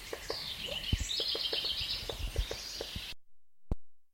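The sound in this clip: Bird calls recorded in the field: many short, sharp chip notes in an irregular series over steady background hiss, followed by a quiet stretch broken by a single click.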